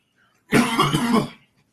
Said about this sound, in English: chronic cough, not COVID.